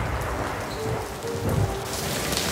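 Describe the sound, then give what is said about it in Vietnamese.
Heavy rain from a large storm pours over a city at night, a dense, steady hiss that stays loud and unbroken throughout. “Đêm đó, cơn bão lớn đổ vào thành phố.”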